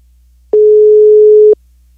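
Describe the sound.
A telephone ringing tone sounds as a call is placed: one loud, steady, mid-pitched beep lasting about a second, with quiet before and after.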